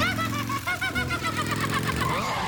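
A motorcycle engine runs loudly and steadily throughout, with a low rumble and a wavering, throbbing whine.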